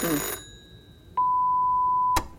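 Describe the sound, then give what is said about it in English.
A telephone ring cuts off, followed after a pause by a steady, mid-pitched electronic beep lasting about a second that ends in a sharp click. “Let's let it go to answer phone.”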